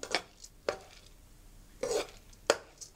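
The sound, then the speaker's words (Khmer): A utensil scrapes and knocks against a pot as coconut cream is stirred with glutinous rice, a few sharp clattering strokes separated by short pauses, with no voices. “ចុះយើងកូរខ្ទិះដូងជាមួយអង្ករដំណើប”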